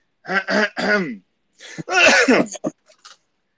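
Throat clearing from someone with something caught in the throat: harsh, grating rasps in two clusters separated by a short pause, fairly loud with no talk over them.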